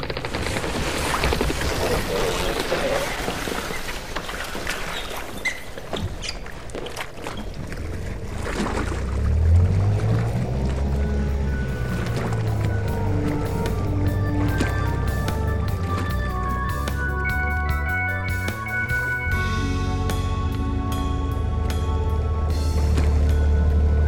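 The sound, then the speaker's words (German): Motorboat ride on water: a continuous engine drone runs under steady rushing and splashing water noise, loud and unbroken throughout, with the motor's hum growing more prominent later on. “Okay, dann lass uns jetzt mit dem Motorboot zur Montana fahren.”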